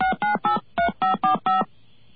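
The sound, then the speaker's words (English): A touch-tone telephone dials a billing account information line, sounding seven short, evenly spaced electronic beeps, each a steady dual tone, followed by near silence. “We're going to call up their number now”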